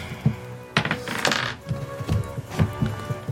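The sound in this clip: Dice rolled on a table during a tabletop role-playing game make a few bursts of light clicks and rattles, with short clattering runs separated by brief pauses.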